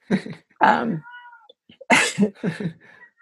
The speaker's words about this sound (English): I have an old cat. That is not a child crying in the background.